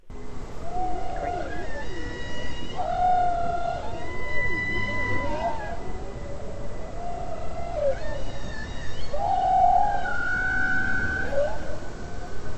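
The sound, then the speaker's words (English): Whale song captured underwater on a hydrophone, a varied run of tonal moans, sweeping whistles and squeaky high notes over a constant background hiss. “Well, before we talk much more about the whale, let's hear one of the recordings that you captured. I really want to hear this. Let's hear what these whales sound like.”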